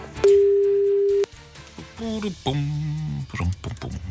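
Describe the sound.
A telephone ringback tone sounds after a number is dialed: one steady, pure mid-pitched tone lasting about a second, then a voice speaking.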